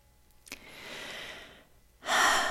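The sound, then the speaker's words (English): A deep breath starts with a sharp catch, continues as a long, soft inhale, and ends in a louder, breathy exhale after a brief pause. “Yeah, deep breaths. I find myself continuing to want to take deep breaths through this conversation.”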